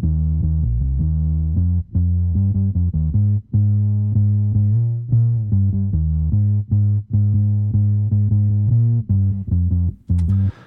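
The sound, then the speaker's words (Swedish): A solo bass line, multiband-compressed in the low end and steeply high-cut so it has no treble. It plays many deep, round notes in a steady rhythm, separated by brief gaps. “Vi kan lyssna på baslinen först.”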